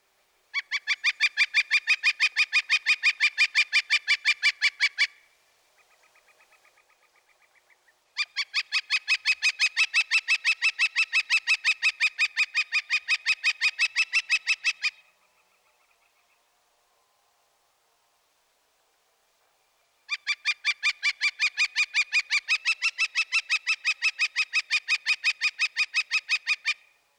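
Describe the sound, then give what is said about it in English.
Northern flicker calls in three long, rapid runs of loud, evenly repeated high notes, with a faint, softer passage between the first two runs and a silent gap before the third. “First, listen to the flicker. He utters a loud, repetitious, quick, quick, quick, quick, quick, quick.”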